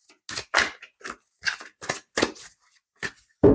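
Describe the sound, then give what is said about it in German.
Tarot cards shuffled by hand, heard as a series of sharp papery riffles and slaps in short irregular bursts with silent gaps between them. No voices. “Zieh mal 3 Karten. Ja, das Rad des Schicksals. Der Stern. Verrückt. Ich muss Ihnen sagen, der Teufel, den habe ich jetzt beim Mischen schon entdeckt.”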